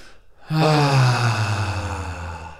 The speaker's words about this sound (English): So let's take a deep breath to clear our mind.